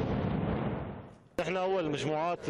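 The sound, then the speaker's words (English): A controlled blast sets off bombs buried in the asphalt of a street, giving a broad rumbling roar that fades over about a second. A voice then talks over the quieter background. “Some of the bombs are buried in the asphalt, and there is no way of defusing them, so we blow them up.”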